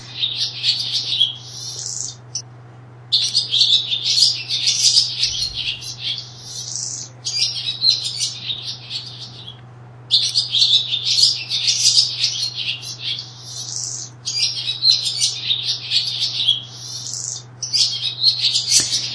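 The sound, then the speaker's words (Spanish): Bird calls ring out in a series of bursts of high, rapid chirping and twittering over about nineteen seconds, separated by short pauses, with a faint steady low hum underneath. “no sé si escuchamos de nuevo el ave que tenemos por aquí. Vamos a escucharla de nuevo. A ver cómo suena ese sonido.”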